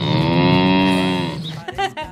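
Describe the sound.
A human voice imitates a cow mooing: one long, steady, low, drawn-out moo, followed by a few short, broken vocal sounds.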